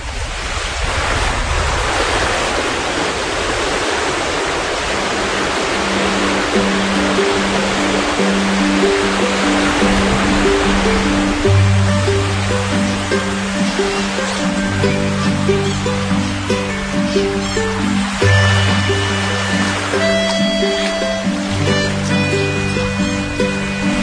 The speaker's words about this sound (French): C'est une piscine, en fait, c'est comme une digue qui a été construite dans la mer. Et c'est une piscine en pleine mer. Et elle se remplit quand la mer monte, là.